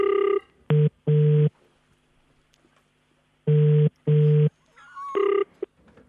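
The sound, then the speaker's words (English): Telephone tones while a number is dialed back, several steady buzzing electronic beeps in uneven groups separated by quiet gaps, each burst cutting on and off sharply. “Okay, we're dialing back.”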